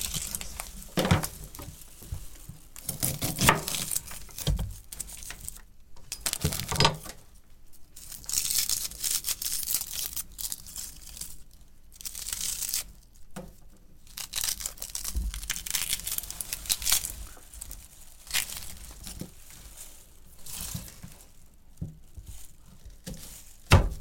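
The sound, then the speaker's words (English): Onions being cut with a serrated knife: many irregular bursts of rasping, crackling sawing and papery tearing, separated by brief pauses, with no talking. “going to cut the onions”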